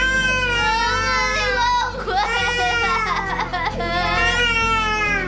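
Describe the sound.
A child cries for its mother with loud, continuous wailing sobs that waver up and down in pitch, barely pausing for breath throughout.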